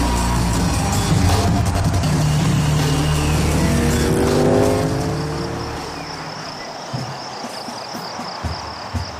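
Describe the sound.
Motorcycles race past on a road beside woods, their loud, whining engine roar dropping in pitch as they go by, then fading into a quieter background.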